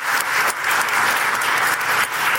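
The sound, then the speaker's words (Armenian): Applause from an audience after a speech at an international climate conference, dense, steady clapping filling the whole clip with no voices. “Հետազոտական կենտրոնի ղեկավար նստեյության աղքատ երկրների անունից էր խոսում, ելույթը ծափահարություններով ուղեկցվեց։”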